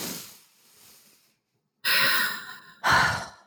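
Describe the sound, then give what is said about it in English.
A deep breath taken while relaxing: a soft, faint inhale, a short pause, then two loud, breathy exhales a second apart, each rushing out and tailing off. “Drop your shoulders. Take a deep breath.”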